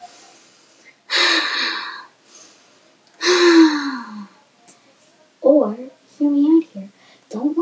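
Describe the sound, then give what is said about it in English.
Deep breaths taken during a bedtime yoga relaxation routine: a few long, airy, loud inhales and exhales, followed by a voice speaking briefly. “Or you can do some nice three deep breaths.”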